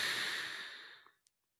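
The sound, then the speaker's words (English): A deep breath, heard as one long, soft, airy exhale that starts full and steadily fades to silence within about a second. “if you just take a deep breath”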